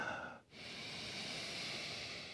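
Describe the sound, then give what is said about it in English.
Deep breathing during a yoga flow in pyramid pose: a soft breath broken by a brief pause near the start, followed by a long, steady, airy exhale. “Let's take a couple of deep breaths here.”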